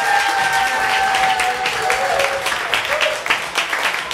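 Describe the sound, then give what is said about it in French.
A studio audience at a game-show taping applauds to cast a vote: quick, dense clapping mixed with raised cheering voices early on, then thinning and tapering toward the end. “Alors, qui croit que c'est Jean-Sébastien Girard qui n'a pas vu 1987? Applaudissez.”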